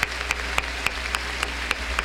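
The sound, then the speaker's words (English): Hand clapping from a worship audience at ORU, a steady series of sharp claps at an even beat, fairly faint against a low background hum. “I want everybody right now to give Jesus Christ a hand clap for making all of this happen.”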